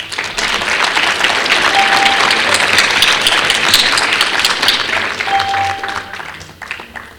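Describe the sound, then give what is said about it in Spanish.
Applause from a crowd at the close of an online panel meeting, dense sustained clapping that swells loudly at once, holds steady for several seconds, then thins out toward the end. “Un aplauso virtual para todos.”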